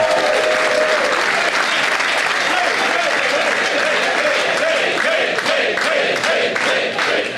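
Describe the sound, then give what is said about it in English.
Audience applause, a loud, dense and steady wash of many hands clapping that holds without a break for about seven seconds, with no clear voices standing out. “That's why everyone was clapping.”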